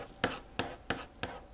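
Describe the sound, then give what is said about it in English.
A pen scratches across paper, crossing out written goals: four quick, rasping strokes in a steady rhythm, each a short dry scrape. “That sound is me completely X-ing out all of these goals.”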